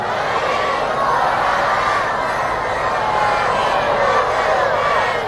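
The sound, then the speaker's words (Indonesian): A crowd answers a salam greeting with a loud, sustained wash of many voices that holds steady for about five seconds, with no single voice standing out. “Dari bunyi sambutan salam nampaknya telah banyak nan puaso.”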